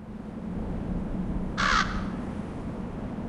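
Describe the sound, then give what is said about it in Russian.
Raven calling: a single harsh, rasping caw, brief and fairly loud, rising out of a low, steady background hum. “услышав крик ворона”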